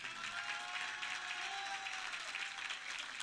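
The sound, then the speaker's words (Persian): Sustained applause from an audience at a devotional gathering, answering a request for a steady round of clapping. The dense, even clapping continues without a break for the whole span. “دست همینقدر بس، سه تا دونه بعد میزدی بس.”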